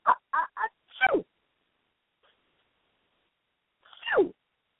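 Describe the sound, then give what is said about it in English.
A sneeze: three short, quick intake sounds build into a sharp, falling burst, then after a long silence a second, single falling sneeze follows. “Oh, that sounds like a sneeze. And that means that you may be feeling under the weather.”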